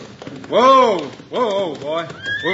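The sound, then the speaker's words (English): A horse whinnies as it is ridden into a Western town, giving a loud, wavering neigh in several pulses with a faint patter of hooves beneath. “Now look, here comes Hickok now, riding into town.”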